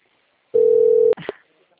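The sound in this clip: A telephone ringing tone on an outgoing call: one steady, mid-pitched tone lasting just over half a second, cut off by a sharp click and a short burst of faint noise.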